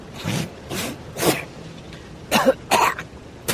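A man clears his throat and coughs in a series of short, harsh bursts separated by brief pauses, with the later bursts louder and sharper than the first ones.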